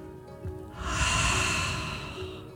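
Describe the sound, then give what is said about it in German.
A long, deep in-breath taken slowly during a relaxation exercise on a mat: a steady breathy hiss rises, holds for well over a second and then tapers off, moderately loud with no talking. “Ein letztes Mal einatmen, lang, lang ziehen und”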